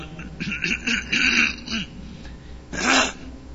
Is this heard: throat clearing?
yes